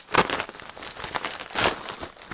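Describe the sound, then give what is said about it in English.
Crinkling and tearing of a big manila envelope-style package ordered from Amazon as it is opened, with a few louder crackling bursts amid steady papery rustling, no talk. “I'm opening the big manila envelope looking thing that I ordered from Amazon. I don't know what it is. It says this way up. So I'll put it that way up.”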